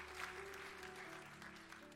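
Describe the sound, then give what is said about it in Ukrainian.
Faint, steady applause from an audience at a church service after a stage play, held at an even level under a low sustained tone. “Давайте ми будемо аплодувати.”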